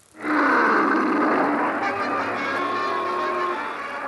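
A lion roars at a city in a 1954 animated cartoon: one long, loud, sustained roar with a rough, rich tone that holds steady for about four seconds.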